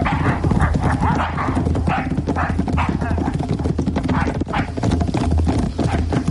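Hooves clopping as horses are led off at a run: a loud, steady, continuous clatter of hoofbeats with no pauses.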